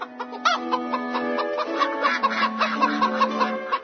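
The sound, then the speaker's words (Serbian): A rooster calls loudly on its own in a rapid run of sharp, harmonic clucking bursts that grow quicker and more insistent. “Prestani da kreštiš! Oglasio se petao.”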